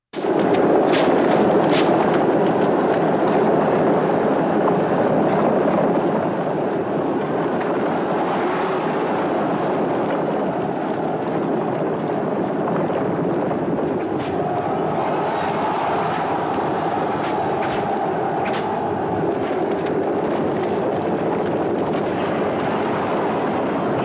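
Chariot race scene from a film, with a chariot fitted with blades on its wheel spokes: a dense, loud, continuous roar of rumbling noise, with sharp cracks cutting through in the later part.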